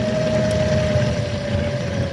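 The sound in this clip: The electric motor of a speed-limited five-gear wheelchair runs after a shift to a higher gear, giving a steady, even hum with a thin whining tone over a low rumble.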